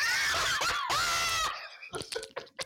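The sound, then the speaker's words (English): A person screams loudly into the microphone: a long, high, wavering cry that dips and climbs in pitch, breaks briefly, then cuts off, followed by a few scattered clicks and knocks. “You screamed in my ears just then.”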